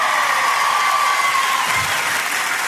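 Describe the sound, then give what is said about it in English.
Audience applause at a recorded sermon: dense, sustained clapping that fills the whole stretch at an even, loud level, with no break and no voices heard. “And just like the Joyce Meyer clip, we're going to get a whole lot of applause here”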